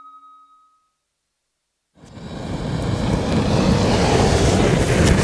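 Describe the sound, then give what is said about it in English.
Wood gas burns from burner nozzles turned downwards, a broad, steady roaring rush that begins abruptly after a short silence and builds slightly, then holds strong and even. “It's the sound of wood gas burning. And it looks like it's actually worked really well.”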